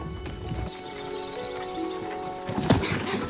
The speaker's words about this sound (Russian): отвязывает лошадь и незаметно спрыгивает с повозки. Но! Она мчится по лесу галопом и доходит до края горы